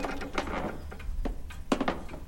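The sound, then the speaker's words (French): A front door creaks open and hallway floorboards creak, heard as a few short, dry knocks and scraping creaks spread over about two seconds at a moderate level. “il n'entendit pas la porte d'entrée grincer, ni le plancher du couloir craquer.”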